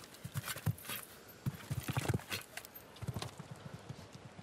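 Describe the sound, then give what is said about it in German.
Galloping hoofbeats of a show-jumping horse on course, a fast, uneven rhythm of soft thuds in clusters, fairly faint over steady background noise. “Wow, da hat aber wirklich die Galoppade lang gemacht hier, bis zum geht nicht mehr.”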